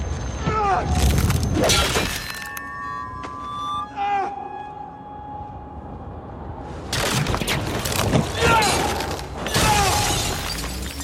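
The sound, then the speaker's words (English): Battle sounds from a TV fight scene against White Walkers with Valyrian steel weapons: loud crashing, shattering bursts at the start and end, with sustained eerie tonal cries ringing in the quieter middle. “There are some weapons that are made out of Valyrian steel. I'm going to play a clip from a fight with the White Walker War at the end of season 5.”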